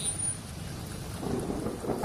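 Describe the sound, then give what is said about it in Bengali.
Heavy rain starting to fall over a wedding house: a dense, steady hiss of rain that swells slightly louder toward the end. “বিয়েবাড়িটায় ঢুকতে না ঢুকতেই জোরে বৃষ্টি নামল।”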